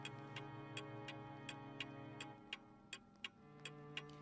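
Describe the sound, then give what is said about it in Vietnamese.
A clock ticks in a room, giving about a dozen faint, sharp ticks at a steady pace over a soft, sustained musical drone. “Kim đồng hồ trong căn phòng khẽ chuyển động.”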